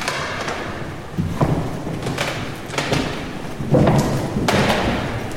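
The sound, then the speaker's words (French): Footsteps crunch and thud over broken door debris inside an abandoned hospital, a few irregular heavy impacts with gritty scraping between them over a steady rushing background. “Ce que vous entendez, c'est les débris de porte.”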